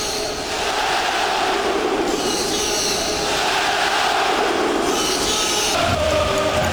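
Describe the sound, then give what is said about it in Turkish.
Inter football fans chant in unison for Hakan Çalhanoğlu after one of his goals of the season, a dense, loud, sustained crowd roar that holds steady for the whole stretch with no talk over it. “Ve herkes onun tezahüratını söylüyor.”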